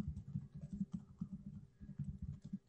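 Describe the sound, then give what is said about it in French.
Steady typing on a typewriter: a soft, continuous patter of muffled key strikes in an even, quick rhythm throughout. “il tape à dactylo”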